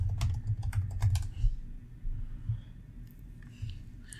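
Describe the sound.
Rapid typing on a computer keyboard: many light, irregular key clicks with brief pauses, heard alone.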